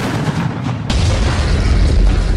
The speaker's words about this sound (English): In Philadelphia, thieves used dynamite to blow up the ATM.